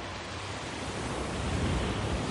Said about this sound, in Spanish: Las olas alcanzan el cuerpo desmembrado del hombre.